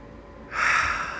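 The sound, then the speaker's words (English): Deep breath drawn in through the nose: a quiet pause, then a single rushing, airy inhale that swells loudly and holds steady to the end. “if I breathe deeply through the nose and hold it for a few seconds”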